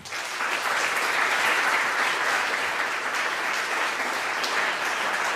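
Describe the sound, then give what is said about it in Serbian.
Applause greeting the team of Peščanik: a sustained, even wash of many hands clapping, loud and steady throughout with no talk over it. “Veliki aplauz i veliki pozdrav za Peščanika.”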